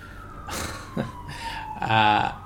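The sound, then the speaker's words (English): An ambulance siren passing during a snowstorm in the southern U.S., a steady high wail that slowly slides lower in pitch, with a person talking over it in short bursts. “I'm apologizing right now because there's an ambulance coming through because we're having a snowstorm in the south of the U.S.”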